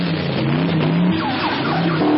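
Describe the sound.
A car engine revs and its wheels spin as the car reverses, trying to pull free after crashing into a snowbank. A loud, steady drone with a sustained whine runs throughout, and higher tones climb in the second half.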